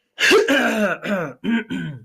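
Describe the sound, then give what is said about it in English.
Someone clears their throat in several raspy, voiced bursts in quick succession, loud and with no other sound. “Uh-oh. Daily throat clearing. Daily throat clearing.”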